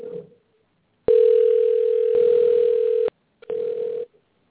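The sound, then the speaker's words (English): A steady, low electronic calling tone plays during a phone call that is being dialed. A long tone of about two seconds is followed, after a short pause, by a shorter one. “It still says dialing on the screen. There we go again.”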